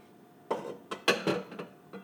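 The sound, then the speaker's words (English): A utensil clinks and scrapes against a pot as egg yolk is stirred into a béchamel sauce for Greek pastitsio. Several short, fairly faint knocks come in an irregular rhythm, with no voices. “Okay, so stirring in egg yolk to the bechamel.”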